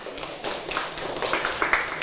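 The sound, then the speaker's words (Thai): Students clapping for themselves after a bingo game in class, a light, irregular patter of claps that stays fairly faint and grows slightly fuller toward the end. “เก่งมากๆเลยปรบมือให้ตัวเองหน่อยค่ะ”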